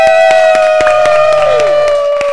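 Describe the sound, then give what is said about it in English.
A live studio audience cheers and claps at an anniversary celebration, with many scattered sharp claps under a sustained whoop whose pitch dips near the end. “So, y'all looking and listening, if you hear that, we have a live studio audience today because we are celebrating our 6-year anniversary.”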